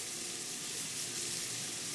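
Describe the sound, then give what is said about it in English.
Calamari sizzling in a pan on the stove with chili flakes, a steady, even frying hiss that holds without a break throughout. “Then I'm going to add my calamari. I'm going to just put that back on the stove for a second.”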